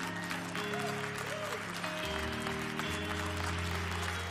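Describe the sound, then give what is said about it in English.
A church audience claps hands in steady, dense applause that holds at an even level throughout. “Come on, let's get let's put our hands together for this church and Jesus.”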